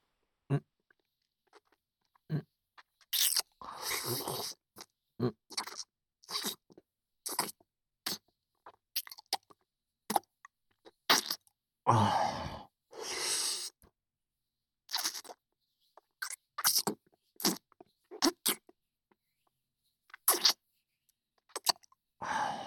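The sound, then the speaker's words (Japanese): Wet licking and mouth sounds: many close, irregular smacks and slurps with short silences between them, and no talking. “それならもっとたくさん舐めてあげるね。”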